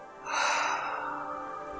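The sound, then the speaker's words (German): A single deep breath taken during a guided relaxation breathing exercise, drawn in through the nose and let out through the open mouth. It is a soft, airy rush that swells quickly and then trails off slowly, with no voices. “Atme tief durch deine Nase ein und durch deinen geöffneten Mund wieder aus.”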